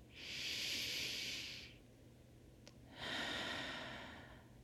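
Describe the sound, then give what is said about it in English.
A slow, deep breath: a long airy inhale, a pause of about a second, then an equally long, soft exhale. Both phases swell and fade smoothly, with no voices. “Let's take a deep breath.”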